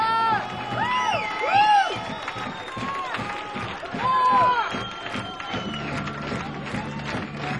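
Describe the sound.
A packed club audience cheers and calls for an encore, with rising and falling whoops and shouts over a dense, continuous crowd roar that swells in a couple of loud waves.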